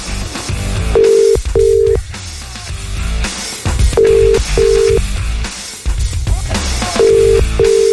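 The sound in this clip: A telephone ringing tone sounds as a radio morning show calls a listener: three pairs of short, steady mid-pitched rings evenly spaced, heard over a dense background.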